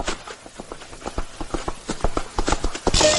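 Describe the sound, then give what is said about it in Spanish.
A horse gallops in pursuit, its hooves striking in a quick, driving rhythm of sharp thuds that grow louder and denser toward the end. “Jeferino lo persigue a caballo.”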